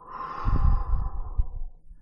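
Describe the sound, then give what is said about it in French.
A long breath is exhaled during a guided breathing exercise, a soft breathy rush lasting well over a second that swells, then gradually fades. “Nous faisons l'exercice une troisième fois. Vous soufflez.”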